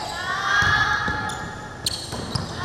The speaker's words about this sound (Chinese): 从维持手感的中远距离投篮，到扎实的战术掩护卡位完成进攻，佛光女篮的队员们每一个回合都全力以赴，